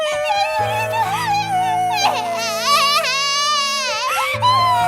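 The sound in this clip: Drawn-out tearful crying from a voice, high and wavering with quivering pitch, held over steady low sustained musical tones.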